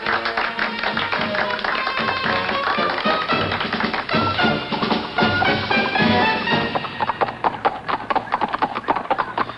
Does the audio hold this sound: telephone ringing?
no